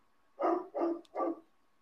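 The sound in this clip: Dogs bark from a home as a stranger approaches the backyard: three short, evenly spaced barks, faint and heard alone without talking.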